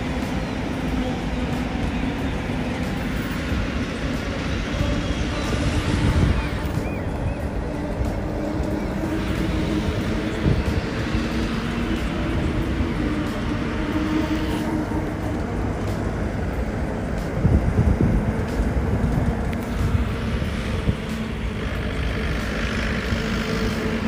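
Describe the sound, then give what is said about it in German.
Vehicles driving off and onto a ferry at Puttgarden: a continuous, dense rumble of engines and tyres with heavy low end, steady throughout, with a few slightly louder swells. “wir fahren gerade sehr viel von der Fähre runter oder auch rauf.”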